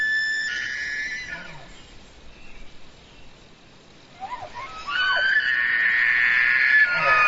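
A Manitoba elk bull's combat call: high, whistling bugle tones that sound in two bursts, a short one and then a longer, louder one, with a quieter gap between them.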